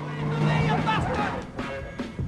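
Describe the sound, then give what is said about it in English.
A car driving off after screeching to a halt by a roadside, a low steady engine hum with voices over it, fairly faint. “The car drives off.”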